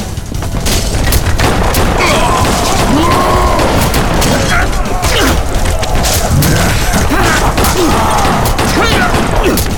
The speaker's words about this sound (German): Verdammt, die Schüsse bringen nicht das Geringste.